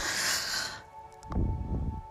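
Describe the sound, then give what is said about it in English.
A single deep breath drawn in during a guided breathing exercise, a soft, airy rush lasting under a second that then gives way to quieter low rumbling, with no talk. “when you're ready, take a deep breath in”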